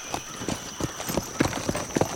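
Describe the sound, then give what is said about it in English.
Horses' hooves clip-clop steadily as mounted rural police ride out from a ranch after watering their horses, with many clear, evenly spaced hoofbeats at moderate loudness and no voices. “The rurales stayed at the Almanzar Rancho only a short time, watering their horses and filling their canteens before riding out again.”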